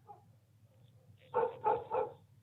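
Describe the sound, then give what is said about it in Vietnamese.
Dogs barking outside at night: three quick, moderately loud barks in close succession after a quiet stretch of faint low hum. “ở bên ngoài chúng tôi nghe loáng thoáng có tiếng chó cắn ma.”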